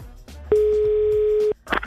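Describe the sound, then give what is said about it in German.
A telephone line tone while calling home sounds as one steady, mid-pitched beep lasting about a second, followed by a brief faint rustle. “sollen wir mal zu Hause anrufen?”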